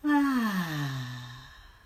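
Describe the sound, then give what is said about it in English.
A loud, voiced exhale through the mouth during a guided relaxation breathing exercise: one long, sighing breath that starts strong and slides downward in pitch as it fades out, heard alone without speech. “Let's take a deep breath in through our nose, breathe in, and a loud exhale through your mouth.”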